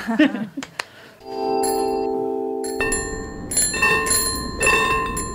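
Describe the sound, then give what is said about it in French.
An old-school bicycle bell rings with a bright metallic tone, first as one sustained ring, then as a few quicker, overlapping rings after some faint clicks. “On dirait un tram, mais ce n'est pas un tram, c'est une sonnette old school.”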